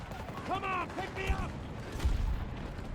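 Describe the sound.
Gunfire and booming blasts from a tank in a video game battle, with bursts of rapid shots and heavy impacts under a voice speaking over the noise.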